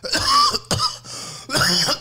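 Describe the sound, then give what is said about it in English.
Harsh coughing, done turned away from the microphone, comes in three rough bursts over about two seconds; the first and last bursts are longer, and no one talks. “I learned how to cough away from the microphone because it is a bitch trying to edit that shit out.”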